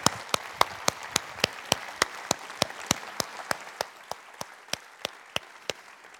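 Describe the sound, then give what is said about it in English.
Applause greets actors coming on stage for a talk about a production of Othello: a steady run of evenly spaced, sharp claps over a faint wash, gradually fading in loudness. “Please welcome Lyndsey Marshal and Rory Kinnear.”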